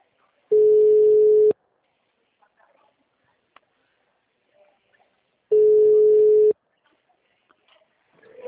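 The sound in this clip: Ringback tone of an outgoing telephone call: two loud, steady, hum-like tones about a second long each, separated by several seconds of near silence.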